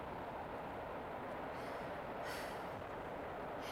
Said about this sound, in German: Dieser Zug kriecht vielleicht.